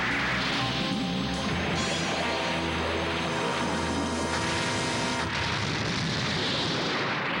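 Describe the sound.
A cannon shot and its explosion in an animated action scene, heard as a loud, dense roaring blast that fills the whole clip with no voices.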